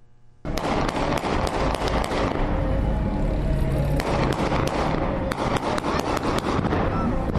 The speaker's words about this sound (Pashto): دا په کابل ښار کې د شهید اونۍ د احمد شاه مسعود د ترور د شپړسم تلین د نمانځنې ورځې په مناسبت د هوایي ډزو آوازونه دي